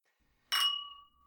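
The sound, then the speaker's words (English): Glass clinks once as a screw-cap wine bottle is opened, a bright, sharp ring that holds and fades slowly in otherwise quiet surroundings. “Let's drink some wine. Right. Yes, crack that wine open. We're not too good for a twisty cap.”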